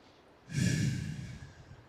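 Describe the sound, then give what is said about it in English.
A deep breath drawn in through the nose and let out again: one long, soft breath with no talk around it. “Take a deep breath in through your nose. Breathe it out. Breathe it all out.”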